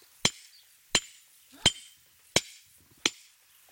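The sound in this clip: A geologist's hammer strikes a hard rock set on the ground at a Roman mosaic site. The rock will not break. Five sharp, loud cracks land at an even pace about a second apart, each ringing briefly, with no talk.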